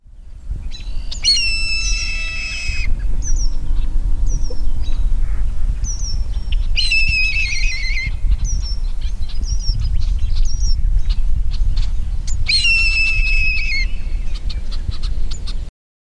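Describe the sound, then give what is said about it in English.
American robin song: several clear, whistled phrases with pauses between them, bright and high-pitched, over a steady low background rumble. “American robin.”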